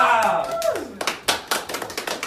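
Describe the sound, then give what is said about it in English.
Light golf claps follow a voice with a falling pitch: a sparse, uneven run of soft handclaps, many quick individual slaps spaced apart rather than a full ovation. “It's like golf claps.”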